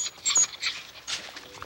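A dog scratching and digging at an iron gate and the earth beneath it: a few bursts of soft, hissy scratching at an uneven rhythm, fairly faint and without voices.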